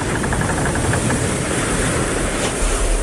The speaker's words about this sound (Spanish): Nos encontramos en un barco que parte de Nápoles hacia España.